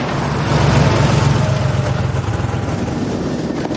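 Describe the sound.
A car drives away: a low engine rumble that swells early on, then settles into a steady hum that slowly eases.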